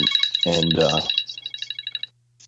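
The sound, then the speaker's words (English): A mobile phone ringtone plays as a run of high, rapidly repeating electronic beeps. A voice speaks briefly over the opening, and the ringing then stops abruptly. “sorry, phone just, no worries. I'm going to shut that off.”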